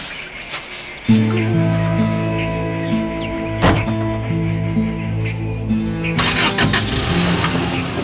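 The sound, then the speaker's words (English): A car engine starts and settles into a steady, humming idle, then swells into a louder, rougher roar as the car drives away across an empty field. “I leave Sita standing in an empty field and drive back to her undeserving husband.”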